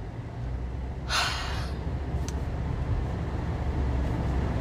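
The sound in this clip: Steady low road rumble from inside a moving car, continuous throughout, with one brief breathy hiss near the start.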